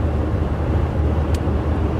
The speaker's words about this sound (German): Ich bin jetzt auf dem Abschnitt, wo ich mit meinem Bus auch mal ein bisschen schneller fahren kann, weil es geht bergab und ich habe ein kleines bisschen Rückenwind.